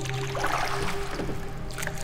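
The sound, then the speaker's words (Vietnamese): A wooden paddle strokes through water as a boat is rowed, giving a quiet, steady swishing and lapping with no clear breaks and no voices. “là tiếng của một cây dầm ghe đang quạnh dưới nước. Âm thanh đều đặn, nhịp nhàng, như có ai đó đang chèo một chiếc ghe.”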